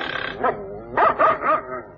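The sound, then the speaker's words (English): Dogs bark in a quick run of several sharp barks and yips, loud and close together, over a constant low hum. “Say, how many dogs has the old girl got?”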